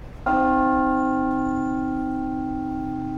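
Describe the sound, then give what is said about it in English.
A single strike on a large two-ton, modern-cast church bell with tuned harmonics. It rings out alone and settles into a long, steady humming tone that barely fades. “This is the Great Bell of Bow in front of us. So that's 2 tons of bell.”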